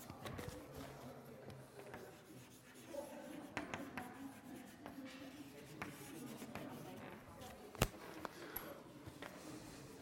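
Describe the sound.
Writing on a board during a lecture on derivatives: many faint scratching and tapping strokes in an irregular rhythm, with one sharper click near the end.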